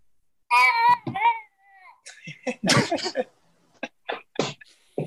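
A person vocally imitates a baby sloth with a high, wavering squeal, followed by a string of short squeaky, breathy cries and yelps.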